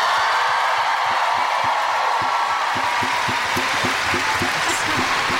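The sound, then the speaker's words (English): Audience applause at a live show welcoming a guest: loud, continuous clapping fills the whole stretch, with scattered sharper claps standing out and a faint whoop now and then. “put your hands together for Jabuki Young White.”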